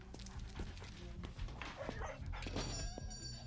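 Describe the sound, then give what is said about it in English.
A dog makes faint whimpers and short yips, low in level and partly buried under steady background noise. “This is a dog”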